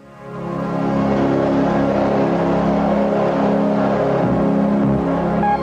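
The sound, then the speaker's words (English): A 1980 Mercury Lynx wagon engine drones loudly and steadily, swelling up over the first half second and then holding a continuous, even roar with no talk. “It's a 1980 commercial for the Lynx car.”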